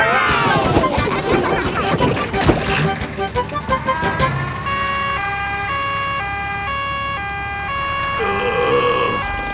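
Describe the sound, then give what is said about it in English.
A cartoon ambulance siren wails with a repeating two-tone, alternating pitch, loud and steady after a noisy opening of voices and commotion. “Call an ambulance! The ambulance is here!”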